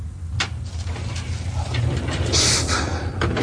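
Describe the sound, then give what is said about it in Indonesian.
An elevator door slides shut and the lift begins heading down to a basement, with a steady low mechanical hum running throughout, a sharp click early on, and louder sliding, whooshing motion building in the second half. “Langsung menekan tombol ke arah basement. Pintu lift pun tertutup dan mulai turun.”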